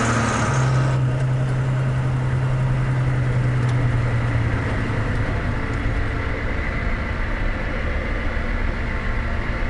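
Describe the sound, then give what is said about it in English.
A Hummer engine idling in a parking garage: a loud, steady low rumble that holds constant throughout, with a low droning tone in the first few seconds that then fades out. “Kill the engine.”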